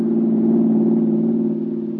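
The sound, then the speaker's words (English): A car engine runs smoothly in a steady, even low hum. The loud, unbroken drone holds level with no voices over it. “That's a smooth-running motor you have there, Mary. What kind of gasoline do you use?”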